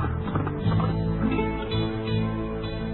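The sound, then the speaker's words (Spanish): Hoofbeats of a horse galloping away into the hills pound in a quick, steady rhythm, fairly loud and unbroken throughout, with no voices. “cogió el primer caballo que pilló y se lanzó al monte”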